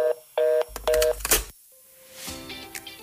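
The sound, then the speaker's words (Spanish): Telephone keypad dialing tones: a few short, steady electronic beeps, followed by a harsher, noisy burst and then a softer tonal stretch. “Paciencia, tienes todo el corte comercial para terminar de marcar.”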